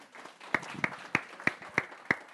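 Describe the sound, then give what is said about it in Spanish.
Six sharp, evenly spaced claps from a church audience during a bilingual service, applauding a pastor's birthday. The claps come in a steady, unison rhythm over a faint background murmur. “Un aplauso.”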